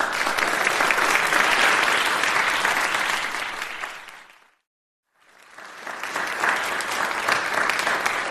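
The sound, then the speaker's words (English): A live audience at Wellcome Collection in London claps loudly and steadily. The applause fades to silence midway, then swells back up to full strength. “I'm with a live audience who can now make themselves known.”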